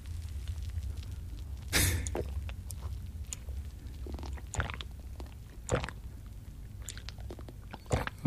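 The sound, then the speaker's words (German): Gulping sips of beer with a foamy head, 4.9% alcohol: a few wet, clicking swallow sounds spaced apart over low background noise, with no talk. “Also ich nehme jetzt mal einen Schluck.”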